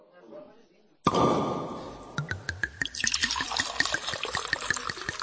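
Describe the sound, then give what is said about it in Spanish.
Liquid pouring from a just-uncorked bottle of Monastrell wine: a sudden wash of flowing sound, then a run of quick, sharp glugs and splashes as the pour continues, with faint background noise before it starts. “¿Vamos a descorchar una botella? Venga, vamos a descorchar nuestra botella hoy, por supuesto.”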